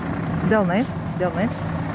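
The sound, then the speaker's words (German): A bus carrying village schoolchildren to Svenčionis for an evacuation drill gives off a steady low engine drone, continuous beneath a speaking voice. “Sie fahren mit dem Bus in den Ort Svenčionis.”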